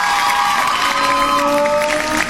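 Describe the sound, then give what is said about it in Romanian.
An audience applauds with some cheering: a dense wash of clapping and raised voices at constant loudness across the short stretch. “eu vă voi cere să aplaudați. Nu așa, ci așa, da.”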